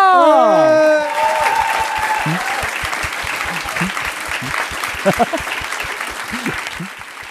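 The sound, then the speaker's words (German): A crowd bursts into dense, sustained applause just after a short electronic sweeping tone, the clapping staying loud and steady before slowly thinning out. “Einen Riesenapplaus an Maria!”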